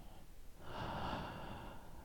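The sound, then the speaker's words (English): Calm, deep breathing during a guided relaxation, one slow, soft breath that swells gently in the middle and fades again, faint and airy. “Remember to breathe, breathe with me,”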